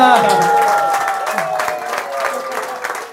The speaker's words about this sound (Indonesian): Oke, kita beri dulu aplaus kita kedatangan tamu yang sangat-sangat-sangat istimewa. Berdiri Bapak Ibu. Berdiri Bapak Ibu, beri aplaus untuk Dr. Sven Gola.